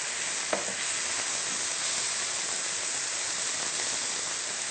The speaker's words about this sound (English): I can see the leeks are beginning to brown, so now we will add the chopped mushrooms.